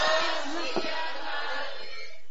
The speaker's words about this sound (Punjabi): ਸਾਰੀ ਸੰਗਤ ਜਿਹੜਾ ਬੱਚਿਆਂ ਨੂੰ ਅਸੀਸ ਦੇ ਜਕਾਰੇ ਦੇ ਰੂਪ ਚ, ਬੱਚਿਆਂ ਦਾ ਹੌਸਲਾ ਵੱਧਦਾ ਜੀ। ਸਾਰੀ ਸੰਗਤ ਇੱਕ ਵਾਰੀ ਅਸੀਸ ਦਿਓ ਜੀ। ਬੋਲੇ ਸੋ ਨਿਹਾਲ।